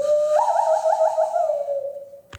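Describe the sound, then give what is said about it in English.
A hand whistle, blown through cupped hands in the style of a Western film, holds one steady mid-pitched tone. It warbles in a quick trill near the middle and fades out at the end. “I can do that little Indian whistle that you do with your hands, like the little good, bad, and the ugly.”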